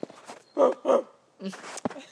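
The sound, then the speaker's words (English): Dog barking: two sharp, moderately loud barks in quick succession, followed by a few shorter, noisier sounds. “You're a good barker.”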